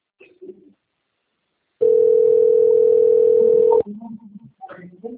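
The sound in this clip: A telephone call rings out unanswered: one long, steady, even ringback tone lasts about two seconds and stops abruptly, with faint low murmuring sounds before and after.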